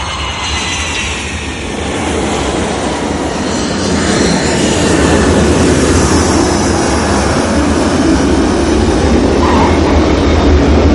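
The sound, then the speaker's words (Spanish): An airplane landing at an airport gives off a broad, roaring engine rush that grows louder over the first few seconds, then holds steady and loud, with no voices. “Un avión aterriza en un aeropuerto.”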